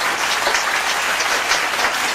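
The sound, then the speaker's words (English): Congregation clapping during a church service, a dense, steady burst of hand claps that runs evenly from start to finish with no voices. “Clap your hand, the Lord Jesus Christ.”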